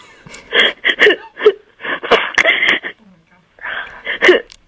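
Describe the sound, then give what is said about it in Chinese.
A person cries in uneven, wheezy sobbing bursts with gasping breaths and short pauses between them. “你别哭了啦”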